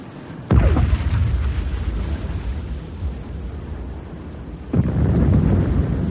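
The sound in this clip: A ship's gun fires incendiary rounds at a vessel, giving two heavy booming shots about four seconds apart. Each starts with a sudden blast and trails into a long, rumbling roar.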